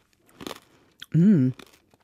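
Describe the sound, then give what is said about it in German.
Teeth bite through a crunchy sugar crust in one short, dry crunch, followed by a brief voiced sound and a few faint clicks. “Das ist hier meine geile Zuckerkruste. Da muss ich jetzt hier mal durch.”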